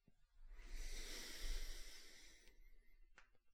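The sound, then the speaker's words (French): A deep breath drawn in and let out during a guided sophrology relaxation exercise: a long, soft, airy hiss of breath with no talk, then a much shorter breathy puff near the end. “Vous allez prendre une première grande inspiration. Vous soufflez. Une deuxième grande inspiration.”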